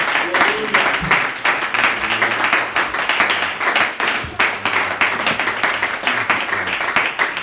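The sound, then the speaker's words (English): A church audience claps its hands together in welcome, a lively, rhythmic pulse of many hands keeping a steady beat from start to finish. “And I want the church to put our hands together and welcome him to the Brother Claiborne.”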